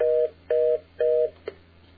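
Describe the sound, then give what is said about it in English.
Reorder (fast busy) tone from a 5ESS telephone switch: three steady, even tone bursts, each about a quarter second long with equal gaps between them, followed by a single short click. “from a 5ESS phone switch, I believe. Hold on. Just dial a pound sign. There's the reorder.”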